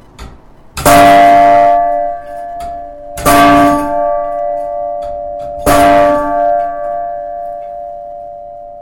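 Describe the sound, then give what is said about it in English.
Three loud strikes of a bell ringing on the hour, evenly spaced a couple of seconds apart. Each strike leaves a sustained, bright metallic tone with overtones that hum and overlap with the next. “Here is the sound of the bell that rings on the hour.”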